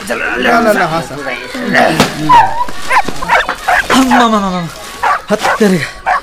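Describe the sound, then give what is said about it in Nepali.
A dog tied up on a rope barks and yips in short bursts, with some whimpering, mixed in with people talking throughout. “काका बाँधेर राख्या कुकुरसँग नि किन डराएको”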